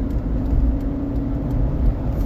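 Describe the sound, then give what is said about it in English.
Steady low road rumble from a car driving down the road with its hazard flashers on. A continuous, fairly loud engine and tyre drone with no voices. “we're all driving down the road with our four way flashers on.”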